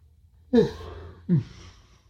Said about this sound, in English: that was a yawn.